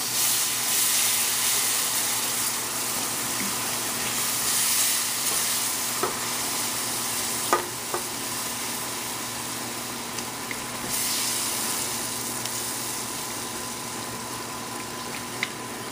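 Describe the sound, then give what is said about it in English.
Milk added to a hot pan on the stove gives a steady, even sizzling hiss while it is stirred, with a few faint clinks and ticks scattered over the simmering noise. “Okay, I'm going to go ahead and start adding my milk in here.”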